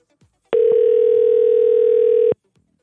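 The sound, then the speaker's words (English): A telephone tone on an outgoing call: one steady, mid-pitched beep just under two seconds long. It starts and stops abruptly, with near silence on either side. “All right, let me call her back. Let's see if we can get her back in here.”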